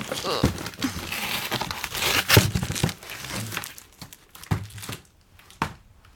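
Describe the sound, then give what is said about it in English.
Packing tape is pulled off the roll and pressed onto a cardboard box, giving irregular crackling, tearing and crinkling bursts that come fast at first and thin out toward the end. “Let's tape.”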